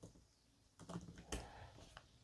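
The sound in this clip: Typing of a search query on a computer keyboard: a few quiet, quick key clicks in an irregular rhythm, with no talk over them.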